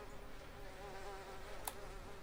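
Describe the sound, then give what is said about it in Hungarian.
Flies buzz in a faint, steady drone that hums evenly throughout, with one brief sharp click near the end. “Coin ezek a legyek, egyszerűen nem. Kitartotta jó ötletnek ezt a legyes dolgot, komolyan mondom, ki?”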